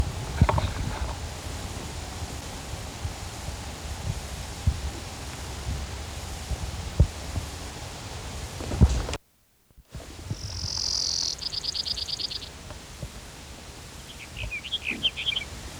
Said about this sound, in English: Sage Sparrow number one.